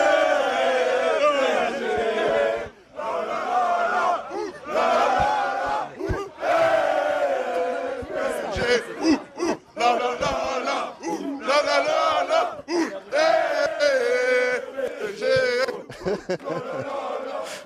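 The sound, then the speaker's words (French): Paris Saint-Germain supporters chant together in a loud, rhythmic surge of massed voices, the phrases rising and breaking in repeated bursts with short gaps between them. “la fête ici absolument extraordinaire, regardez cette ambiance absolument, depuis tout à l'heure, un monde fou évidemment, le public du Paris Saint-Germain, regardez, ça monte.”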